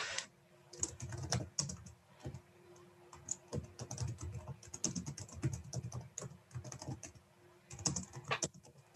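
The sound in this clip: Steady typing on a computer keyboard, with many crisp keystroke clicks in uneven bursts and short pauses. No talk is heard.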